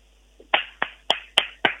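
A classroom clap: five sharp hand claps in a quick, evenly spaced rhythm, clean and crisp against near silence.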